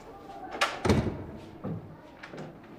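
A door is being closed, producing a few dull thumps and knocks of moderate loudness, the strongest near the start, with quieter knocks following.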